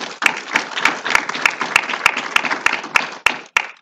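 A church audience applauds to welcome a scripture reader: about four seconds of dense, steady clapping from many hands, with sharp individual claps standing out at a fairly even pace, and no talk.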